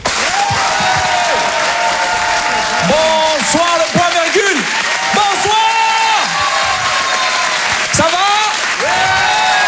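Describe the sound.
Audience cheering and applauding at a live comedy club show: loud continuous clapping with shouts and whoops rising and falling over it, sustained at full volume throughout.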